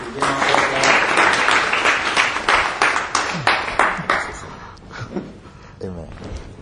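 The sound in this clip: An audience claps for a team leader at a gathering, with dense, ragged clapping that stays steady and fairly loud before thinning out near the end, partly under a speaking voice.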